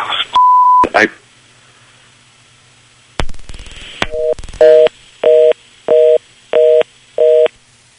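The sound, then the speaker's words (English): Telephone busy tone after the other party hung up on a call, a loud steady series of evenly spaced two-tone beeps, preceded by an earlier single beep and a clunk. “Don't think he expected us to call him. He just hung up the phone.”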